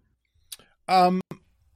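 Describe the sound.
A voice imitates the clicking of a clicker zombie from The Last of Us, a few sharp clicks around a short, strained voiced croak, alone and brief.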